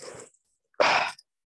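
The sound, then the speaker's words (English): A single sneeze bursts out sharply and loudly, lasting about a third of a second, after a softer breathy sound and a short pause. “I wanted to sneeze and I did.”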